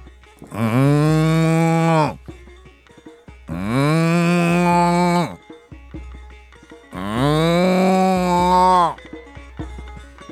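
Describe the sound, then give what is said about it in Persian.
A cow moos three times, each a long, loud, tonal low call lasting well over a second, separated by short quiet gaps. “لیکن گاو تنها صدا کشید”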